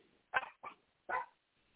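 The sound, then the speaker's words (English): Three short dog barks: the first two close together, the third after a brief pause. They are fairly faint and heard alone, with no talking. “Quit all that barking.”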